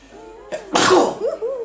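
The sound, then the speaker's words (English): A single loud human sneeze comes after a quick, sharp intake of breath and trails off into a short voiced sound. “I need to sneeze.”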